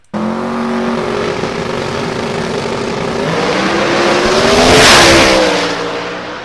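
A twin-turbo inline-engine drag car makes a 5.3-second quarter-mile run, its engine roar climbing steadily in pitch and loudness to a harsh peak and then falling away. No voices are heard over the engine.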